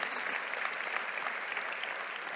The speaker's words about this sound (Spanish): ¡Wow! ¿Puedes darle un aplauso a Dios por esa historia tan linda?